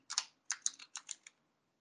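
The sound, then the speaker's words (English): Typing a name on a computer keyboard: a quick run of several crisp, clicking keystrokes in short bursts, followed by silence. “type in Valentina Sampaio”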